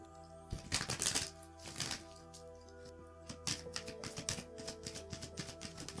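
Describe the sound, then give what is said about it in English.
Cards from an oracle deck being handled, with a burst of loud papery shuffling followed by many light, quick flicks and taps over a faint steady hum. “I'm going to pull a Trust Your Vibes card for you and wrap up your reading.”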